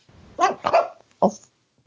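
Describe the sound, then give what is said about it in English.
Dog barking: three short, sharp barks, the first two close together and the third after a brief pause, alone against quiet. “He was barking.”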